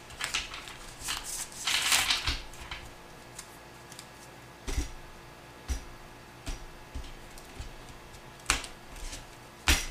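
Tarot cards are shuffled and handled: a dense, papery riffling flurry comes first, followed by sparse soft snaps and taps, all faint.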